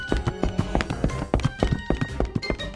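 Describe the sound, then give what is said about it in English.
Footsteps coming from outside a dark, dusty house: many heavy, irregular thuds and scuffs in close succession, loud and without talk. “Suddenly, they heard footsteps coming from outside.”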